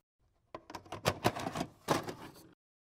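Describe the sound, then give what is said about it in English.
Rummaging and a cassette tape being slotted into a player in a cabin: about two seconds of clattering plastic clicks and knocks in quick, uneven succession, with no talking. “I'm going to have a little rummage around in the cabin here, see if I can find the exact tape, slot it in”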